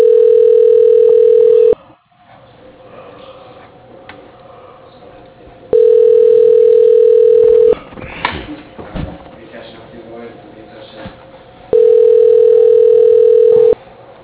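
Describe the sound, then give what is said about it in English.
Telephone line tone during a call transfer to voicemail: three long, steady mid-pitched beeps, each about two seconds, separated by stretches of faint line hiss with some quieter rustling. “Do you want me to transfer you to his voicemail? Yes, please. Okay, I'll transfer you.”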